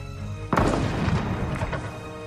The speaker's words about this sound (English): What was that? I think that was a rifle. That almost hit me